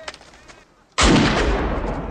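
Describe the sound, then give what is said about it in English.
A pistol fires one sudden loud shot during a rapid reload-and-fire drill, and a long booming rumble follows it to the end. A faint voice is heard just before the shot. “And he's firing the pistol in his ear”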